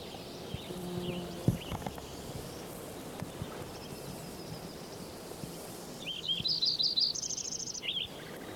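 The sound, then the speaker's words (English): A Lincoln's sparrow sings a brief, bubbly run of high chirps ending in a quick buzzy trill, faint over low rumbling background noise. “Lincoln sparrow number 7.”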